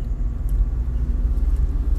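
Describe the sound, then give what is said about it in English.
Low, steady rumble of a car driving, heard from inside the vehicle with the window open, a continuous deep road and engine drone without distinct events or voices. “I love podcasting while I'm driving.”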